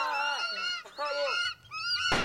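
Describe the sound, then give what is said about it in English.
Birds attack people in a film with harsh, goose-like honking shrieks. Several loud calls come in quick succession, some overlapping, and the sequence ends in a sharp, noisy burst. “Oh, the birds are attacking the people.”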